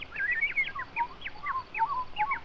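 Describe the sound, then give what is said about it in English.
A voice imitates a warbling bird with many quick, chirpy whistled notes that sweep up and down in a lively, uneven trill, moderately loud throughout. “And the bird began to warble.”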